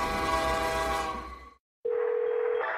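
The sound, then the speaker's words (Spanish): A train's horn as the train passes a crossing: a broad rumbling roar fades out into a moment of silence, then a single sustained, steady horn blast sounds on one held pitch. “Alto, el tren no para.”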